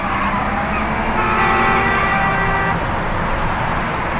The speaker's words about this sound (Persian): محب با سرعت توی جاده در حال حرکته.